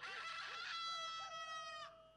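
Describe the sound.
A single rooster crow, faint and drawn out, a high, strained harmonic call lasting nearly two seconds before cutting off.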